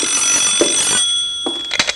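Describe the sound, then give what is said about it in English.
A telephone rings at a ranger headquarters with a steady, bright electronic ring. The ring then cuts off, and a few brief clattering knocks follow. “You want me to get the phone”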